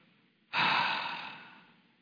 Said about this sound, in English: I just want you to exhale.